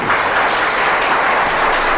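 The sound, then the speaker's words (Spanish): Audience applause at a church gathering, a dense, steady clatter of many hands clapping at an even, fairly loud level throughout, with no voices over it. “¿Cuántos le pueden dar un aplauso al Señor?”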